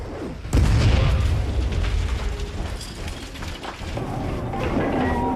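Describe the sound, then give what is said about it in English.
Explosions rip through a stricken ship. A heavy boom bursts in about half a second in, followed by continuous deep rumbling and metallic rattling and clanking that lasts to the end. “More explosions rip through the stricken ship as Gibson heaves himself up a metal staircase to reach the hold door.”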